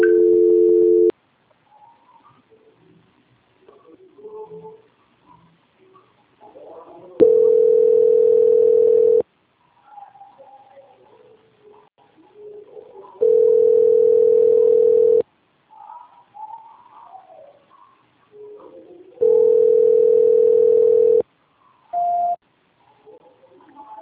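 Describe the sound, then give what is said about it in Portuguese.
A telephone line tone sounds while a dropped call is being transferred: a steady, low electronic hum recurs in four separate blocks of about two seconds, with faint warbling sounds in the gaps and a brief higher beep near the end. “Caiu a ligação, vou transferir agora para a auditoria novamente. Só um momento. Tá bom, tá. Transferência.”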